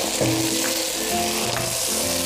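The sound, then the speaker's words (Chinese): Peas, diced shiitake mushrooms and bamboo shoots stir-fry over high heat in a wok, giving a steady, dense sizzle and crackle with faint scraping of the food being tossed. No voices are heard. “开大火，加上锅盖收一下汁儿，开盖翻炒一下，”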